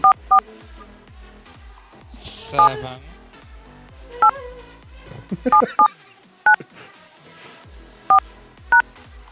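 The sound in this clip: Telephone keypad touch-tones dialing an access code into a conference call line: a string of short, loud dual-tone beeps in an uneven rhythm, with a brief hiss of noise between the early tones.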